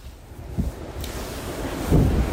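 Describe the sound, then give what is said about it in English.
Wind blowing in snowy high mountains of northern Norway, with light snow and freezing cold at minus 15; a steady low rumble with buffeting gusts, swelling louder toward the end, and no voices. “With the sound of the wind, light snow and freezing, minus 15.”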